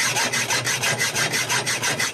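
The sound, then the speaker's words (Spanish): Hand saw cutting wood: rhythmic rasping strokes, about four per second, evenly paced back-and-forth, bright and gritty, loud and steady with no voices. “El serrucho en acción, sí, señor.”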